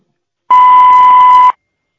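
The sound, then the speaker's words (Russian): A single voicemail beep marks the start of message recording. It is a steady, mid-high electronic tone lasting about one second, loud and alone, with no voices. “Звонок был перенаправлен на голосовой почтовый ящик. Вы можете оставить сообщение после звукового сигнала.”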